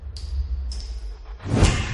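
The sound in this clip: A body drops to the floor during a fight scene in an action thriller film. Two brief swishes come first, then a heavy, low thud lands near the end.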